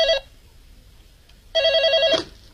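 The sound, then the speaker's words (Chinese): A telephone rings for a hotel's general manager with a trilling, pulsed ring: a short tail of one ring at the start, silence, then a full ring burst. “没想到第二天总经理朱永昌又接到了那个神秘的电话”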